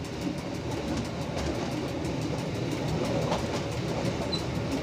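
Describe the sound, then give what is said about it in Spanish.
A train arriving at a station in a small town on the western slope of Mount Etna, heard as a steady, loud rail rumble with clattering wagons and a faint high squeal near the end. No voices. “Rosanna llega con el tren a Bronte”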